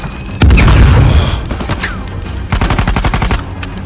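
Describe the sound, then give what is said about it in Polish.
A grenade explodes in a video game with a loud, booming blast, followed a moment later by a rapid, rhythmic burst of gunfire shots. “Kurde, granat.”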